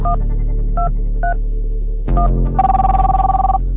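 Touch-tone beeps sound as a number is dialed on a mobile phone. Four short tones come over a low hum, followed by a loud, steady, pulsing ringback tone as the call connects.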